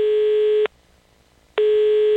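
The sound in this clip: A telephone ringing tone plays as a call is placed: a steady, even electronic tone breaks off for about a second of silence, then sounds again at the same pitch.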